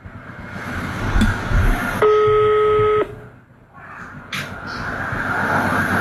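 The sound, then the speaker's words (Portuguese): The ringback tone of an outgoing phone call: one steady, buzzy electronic tone lasting about a second, with rough background noise before and after it. “Tá chamando.”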